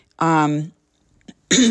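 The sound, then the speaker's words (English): Throat clearing from a person with asthma and a vocal tic: a voiced, rumbling clearing sound, then a brief catch, then a second shorter clearing burst, all fairly loud. “I do clear my throat a lot because I actually have to, because I have asthma.”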